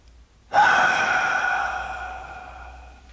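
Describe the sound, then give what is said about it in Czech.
A loud, drawn-out exhale on command during a medical check-up, starting abruptly with a voiced, tonal breath that slowly fades over a few seconds. No other sounds accompany it. “Hlasitě vydechněte.”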